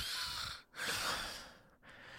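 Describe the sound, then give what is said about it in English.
A sleeping person snores in raspy, breathy cycles of hissy airflow, each broken by a brief pause, with no talk over them. “One of them has begun to snore his signature”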